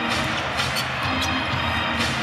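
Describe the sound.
A basketball is dribbled during a game, with a few dull bounces standing out over a constant wash of crowd noise.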